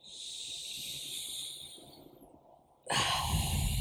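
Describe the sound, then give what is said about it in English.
A deep, cleansing inhale, heard alone as a steady airy hiss for nearly three seconds that briefly thins out, then a sudden, louder and fuller rush of air at the end. “let's inhale a nice cleansing breath.”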